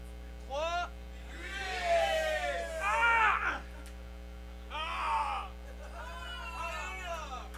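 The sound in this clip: Screaming and wailing into a sacrificial microphone at an absurdist fair in Montreal: several loud, drawn-out vocal cries and groans that bend up and down, heard over a steady electrical hum.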